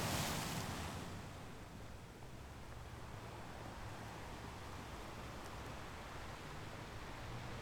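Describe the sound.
Ocean waves wash in a steady, faint hiss of surf as the tide goes out, an even, unbroken roar with no distinct breakers standing out.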